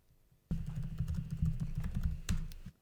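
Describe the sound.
Typing a message on a computer keyboard: after a brief quiet start, a quick, continuous run of many light key clicks lasting about two seconds, with one slightly louder tap near the end and no talking.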